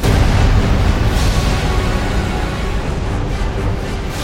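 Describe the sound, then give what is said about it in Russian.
An explosive strike of fire from the clouds hits a building's roof and throws debris outward, heard as a loud, dense, roaring rumble that starts at full force and fades slowly and evenly over several seconds. “Есть! Началось! Огонь вспыхнул среди туч и ударил.”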